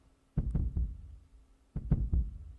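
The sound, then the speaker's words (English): Heartbeat thumps come in two clusters of quick, low, muffled beats separated by a short pause, dull and heavy with no voices. “the only thing you can hear as you do this is the sound of a heartbeat”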